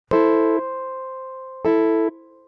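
Two sustained keyboard chords, the right hand of a Bach chord from bar 15, each struck cleanly and held about half a second before a soft, lingering decay, with a pause between the two strikes.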